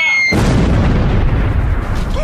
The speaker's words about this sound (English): What in the world was that? Oh, that was an IMP missile. It delivers a deadly payload of impatience. They really pack a wallop.